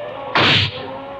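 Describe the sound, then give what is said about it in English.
A gunshot fired at a huge beast gives one sharp, loud burst lasting a fraction of a second over a low, steady hum. “You got him, sir. What a shot.”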